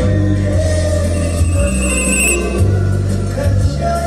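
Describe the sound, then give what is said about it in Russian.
A telephone rings over a loud, continuous background. “У Сергея Палыча звонит телефон.”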